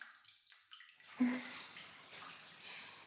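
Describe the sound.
Bath water sloshes softly in a bathtub, faint and low, with one slightly stronger splash partway through before it settles back into gentle lapping.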